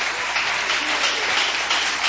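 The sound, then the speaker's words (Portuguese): Church audience clapping in praise of Jesus during a service: steady, dense applause that fills the whole stretch without a pause. “Glorifique e bate palmas para Jesus, aleluias.”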